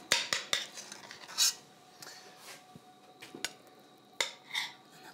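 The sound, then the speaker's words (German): Metal spoon clinks and scrapes against dishes as stuffing is spooned into onions, a run of sharp, bright taps and rubs, some louder than others, scattered irregularly with quieter scraping between them. “Löffel und dann füllen wir die Zwiebel jetzt einfach.”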